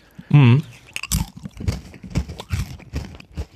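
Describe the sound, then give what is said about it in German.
Crisp spelt crackers are crunched and chewed in many dry, crackling bites at an uneven rhythm, after a short vocal sound at the start. “Wie bei jedem Cracker. Auch bei Dinkelcrackern. Also das check, das funktioniert. Ja, also ist ja schon knusprig, ist es ja.”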